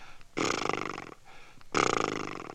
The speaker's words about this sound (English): Feel your lips loosen when they flap like that?